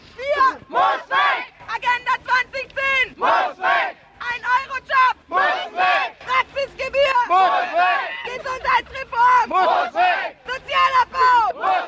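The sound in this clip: Crowd chanting at a German protest against government labour market reforms that abolished unemployment assistance, around 2004–2005: many voices shouting in loud, rhythmic bursts separated by short pauses, the chant repeating steadily.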